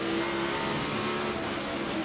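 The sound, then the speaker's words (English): A Toyota Camry NASCAR race car engine holds a steady, high-revving roar throughout, faint and continuous, with no voices. “This is a Camry. This is a Camry on NASCAR.”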